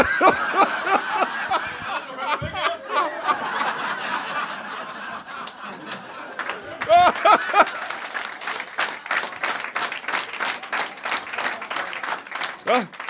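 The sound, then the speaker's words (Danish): Audience clapping and laughing as a guest introduced as a used car dealer comes on, with chuckles and talk mixed in and the applause growing denser and louder in the second half. “Mine damer og herrer, giv en stor hånd til en brugtvognsforhandler. Giv mig en kæmpe stor hånd.”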